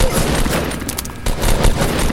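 Dense video game gunfire, a rapid continuous volley of loud overlapping shots with a short dip in the middle before the firing resumes.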